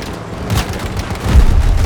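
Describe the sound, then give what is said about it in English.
Two C4 charges detonate in a video game, making a low, rumbling boom that swells in the second half and stays heavy to the end. “Explosive, Come on, I put two C4s on it.”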